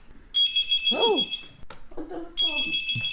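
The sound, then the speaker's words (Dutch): An electronic phone ringtone signals an incoming call: a high, steady, bright tone sounds in two bursts, and people talk in the gap between them. “Toevallig belt hij net als we er zijn.”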